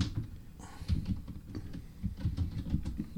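Typing on a computer keyboard in an ASMR setting: many rapid, uneven keystrokes click and patter steadily over a low, soft rumble.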